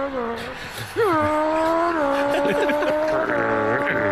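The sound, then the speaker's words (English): A voice imitates a car revving and changing gears during football commentary. A buzzing, engine-like drone sweeps up in pitch, levels off and shifts again several times, each sweep mimicking a gear change. “It's good that he's doing the gear changing and everything.”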